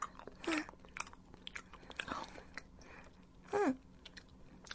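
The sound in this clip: Someone chews and eats food quietly, with soft wet mouth sounds and a few louder, crunchy bites standing out among them.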